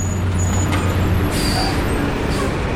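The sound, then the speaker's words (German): A freight train loaded with coal passes through Clairton, Pennsylvania, a loud, steady rumbling roar with thin high squealing tones running over it throughout. “Ein Güterzug mit Kohle fährt vorbei.”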